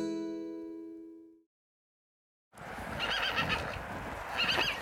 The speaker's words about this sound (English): Once again, you join me in the field with Surf and Betty, our two much-loved ponies.